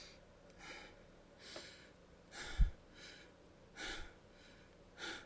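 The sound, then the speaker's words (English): Relaxed breathing demonstrated alone, a few faint, soft breathy exhales let go in an uneven rhythm with quiet gaps between them. “I know it's a little hard in audio, but the idea is when you exhale, you just let go. You just let it go, okay?”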